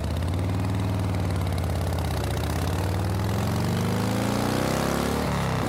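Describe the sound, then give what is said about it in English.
Engine drone of a three-seated motorcycle on a long ride toward the northern Yukon: a loud, continuous low rumble with rich harmonics and a slight wavering pitch, heard alone with no voices. “I think maybe we were hasty in driving up to the northern Yukon on a 3-seated motorcycle.”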